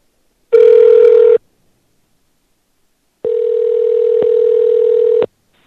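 Telephone tone after a caller hangs up: a short steady electronic tone, a pause of silence, then a longer unbroken tone of the same pitch, loud and clean with no voices.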